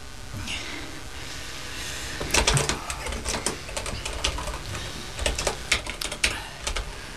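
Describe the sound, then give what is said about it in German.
A password is typed on a computer keyboard, with many rapid, crisp key clicks coming in uneven bursts over a steady low hiss. “Nun heißt es Daumen drücken. Ich gebe das Kennwort ein.”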